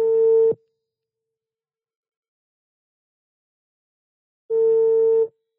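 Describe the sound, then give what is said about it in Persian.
A telephone line tone while placing a call: two steady mid-pitched ringback tones, each under a second long, separated by about four seconds of silence. “ما زنگ رو می زنیم، ممکنه بر ندارن و ممکنه اطلاع بدن که مثلا بعدن زنگ بزن.”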